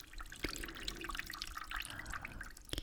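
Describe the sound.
Warm water poured over a person's back trickles and drips softly, with many small, quiet splashes scattered irregularly and a few slightly sharper drips standing out.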